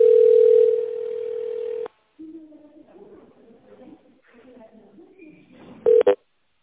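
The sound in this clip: A steady telephone tone holds for about two seconds on a call to a company, then a recorded voice speaks before two short tone pips sound as the line connects to an operator.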